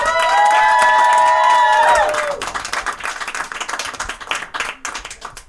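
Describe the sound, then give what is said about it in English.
Audience applause and cheering for a comedian: a loud sustained whooping cheer rides over clapping for about two seconds, then dense, steady clapping continues. “All right, give it up again for Luke Swisher.”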